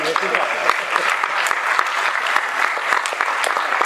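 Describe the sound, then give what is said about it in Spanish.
Audience applause at a panel discussion on transgenic crops: dense, continuous clapping with sharp individual claps standing out, holding at a steady loud level throughout. “Bueno, pues solucionado del aplauso.”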